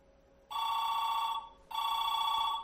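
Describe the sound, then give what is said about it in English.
Two telephone rings of a forwarded call placed with caller ID blocked. Each is a bright, steady electronic trill about a second long, separated by a short gap, over faint background hiss. “You hear that? Two rings. Two quick rings.”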